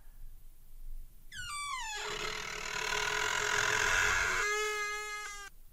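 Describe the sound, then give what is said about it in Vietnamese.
A large ironwood wooden door slowly creaks open with a long, high, tonal squeal that drops in pitch, holds as a strained groan, then ends in a second squeaky rasp. “Cánh cửa gỗ lim lớn từ từ rít lên một tiếng. Sau đó được đẩy ra.”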